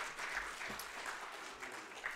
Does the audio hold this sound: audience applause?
yes